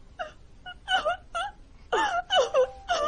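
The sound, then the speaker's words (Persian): A girl crying, with whimpering wails and sobs in a series of short, uneven bursts that grow louder and longer in the second half. “گریه میکنی؟ چی دختریه اینقدر ناراحت شدی؟”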